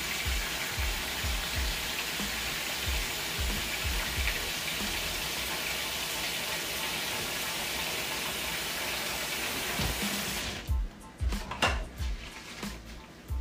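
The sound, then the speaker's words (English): Hands being washed under running water: a steady, even rush of water that stops near the end, followed by a few scattered knocks and splashes. “I'm sorry, I'm washing my hands.”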